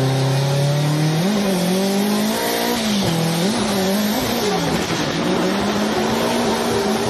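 An S15 drift car engine revs hard and loud with no break, its pitch wavering up and down several times as the throttle is worked.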